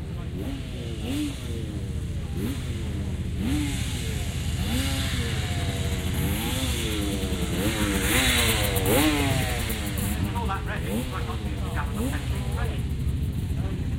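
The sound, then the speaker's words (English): A two-stroke European off-road racing motorcycle, a Marini, comes in with a loud, continuous engine note, its pitch wavering up and down as the throttle is worked through the whole stretch. “But it's got to be a special bike. A bike that is different from the norm. A bike that perhaps is off-road racing. A bike that sounds like that that's coming in.”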